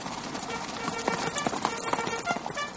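Cavalry horses trotting in column: many rapid, overlapping hoof clip-clops form a steady, busy clatter throughout.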